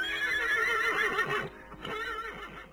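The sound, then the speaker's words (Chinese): A horse hitched to a carriage whinnies in a long, wavering, high-pitched call, followed by a softer, lower second neigh. “马车又套上了马，冒雪疾驰”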